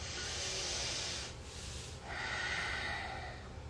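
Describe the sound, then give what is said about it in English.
A slow, deep breath taken to settle before a tarot card reading: two long, airy, hissing breath sounds with a short dip between them, fairly loud and steady, with no talk. “So I'm going to take a deep breath just to slow down and channel this reading”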